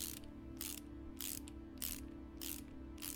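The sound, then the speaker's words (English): A socket wrench ratchets in quick, evenly spaced bursts as a panel on the back of a generator is tightened. The clicking strokes repeat in a regular rhythm over a low, steady hum. “The socket wrench. Oh, right. Just gotta tighten this panel on the back of the generator.”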